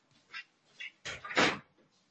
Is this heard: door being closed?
yes